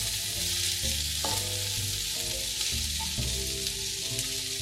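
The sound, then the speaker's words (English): Onion rings frying in olive oil in a pan, a steady crackling sizzle that runs evenly throughout. “I don't want my onions to brown, so I am using olive oil instead.”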